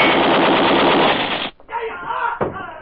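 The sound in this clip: A loud, rapid burst of automatic gunfire rattles without a break for about a second and a half, then cuts off abruptly as voices follow.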